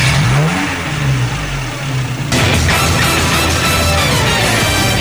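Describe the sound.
A motorcycle engine revs and then rides away at full throttle, starting with a rising mid-pitched whine that swells into a loud, sustained roar partway through.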